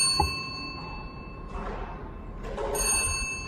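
A lottery ball drops from the draw machine into the outer tray at a lottery draw, giving a short ding followed by a clattering rattle over a steady electronic hum.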